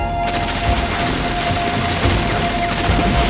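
Rifle gunfire in a town shootout: a dense, continuous fusillade of overlapping shots fills the whole clip at steady, loud intensity, with a thin steady tone running faintly beneath.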